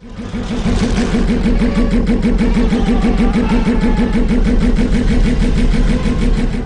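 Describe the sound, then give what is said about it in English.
A podracer engine roars in a film's race sound mix: a loud, continuous, throbbing drone with a fast, even, rhythmic pulse that stays steady throughout. “The fact that all we've got is Ben Burtt's excellent sound mix, and especially Sebulba's vehicle, really adds to it.”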